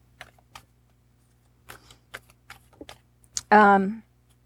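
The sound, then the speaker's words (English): Tarot cards being shuffled and flipped, heard as several light, scattered taps and flicks, followed by a brief voiced exclamation near the end. “Oh, no, too many cards. Half the deck tried to flip.”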